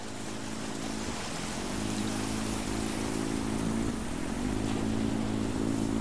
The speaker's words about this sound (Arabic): ويسمع صوت زورق قادم يشق الماء